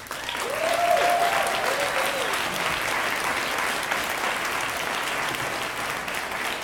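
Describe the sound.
An audience applauds to welcome a speaker to the stage, with loud, dense, even clapping that swells in the first second and then holds steady and sustained to the end.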